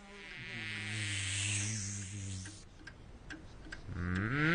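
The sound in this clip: A bee buzzes with a low, wavering hum that holds steady for a couple of seconds. After it stops, a few light ticks follow, then the buzzing returns and rises in pitch.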